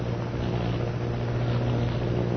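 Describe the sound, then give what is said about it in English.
Steady engine drone of an airplane flying overhead: a continuous low hum that holds level and fairly loud from start to finish, with no voices. “Sounding like airplane. Airplane?”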